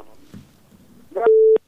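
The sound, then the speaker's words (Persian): Phone line tone after a call is cut off. Faint, muffled sounds give way to a single steady electronic beep lasting about a third of a second, then silence. “بله این تماس ما قطع شد، میریم تماس دیگه میگیریم.”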